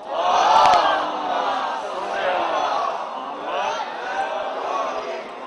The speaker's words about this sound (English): For the sake of all the participants and all the volunteers who have worked hard, please read a loud salawat.